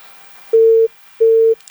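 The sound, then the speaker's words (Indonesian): Disconnected phone line tone after a dropped call: two identical steady mid-pitched beeps, each about a third of a second long, separated by a short silence and heard alone. “Terputus lagi. Jadi kita angkat lagi di telepon WhatsApp ya sahabat budaya, karena tadi di telepon biasa terputus.”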